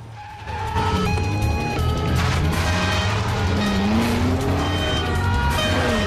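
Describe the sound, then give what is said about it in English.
Police cars drive off fast through a city, with loud revving engines and squealing tires forming a continuous roar and engine pitch climbing throughout. “They rush to vehicles and drive off through the city.”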